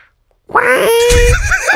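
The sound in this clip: A person imitates a cartoon duck's voice singing: a raspy, quacking, buzzy vocal line with wavering pitch that starts abruptly after a brief silence and continues loudly to the end.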